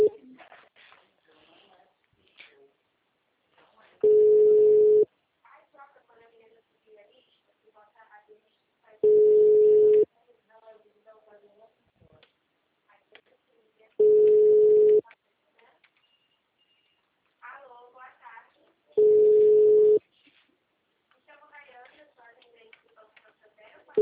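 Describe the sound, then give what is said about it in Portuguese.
A telephone busy tone sounds after a dropped call: four loud, steady single-pitch bursts, each about a second long, spaced roughly five seconds apart. Faint voices and other soft sounds fill the quieter gaps between them. “Ainda falou, nossa, a ligação caiu, que pena.”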